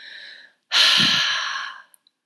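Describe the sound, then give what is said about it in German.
A single strong, forceful exhalation is pushed out through the mouth during a letting-go meditation. A soft, airy breath comes first, then after a brief pause the loud rushing exhale fades gradually, followed by a couple of faint clicks. “Und alles Negative, was noch da ist, all den Schmerz, atme es ganz, ganz kräftig aus.”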